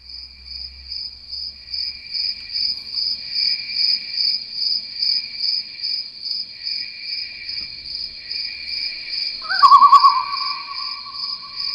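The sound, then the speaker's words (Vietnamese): Crickets and other night insects chirp in a garden, a steady high pulsing trill that runs throughout. A brief louder call breaks in near the end. “Ví dụ như mình nghe thử một cái đoạn ban thu cái tiếng mà những cái con côn trùng ban đêm nó kêu trong vườn nha.”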